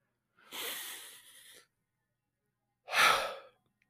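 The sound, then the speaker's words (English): A deep breath drawn in and then let out, two soft, airy breath sounds separated by a pause of about a second, faint and without talk. “Let's take a deep breath in real quick and then let it out.”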